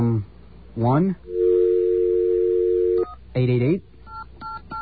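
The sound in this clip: A telephone number is dialed: a steady dial tone holds for about two seconds, then several short, sharp keypad beeps follow. Voices speak before the dial tone and again just before the beeps.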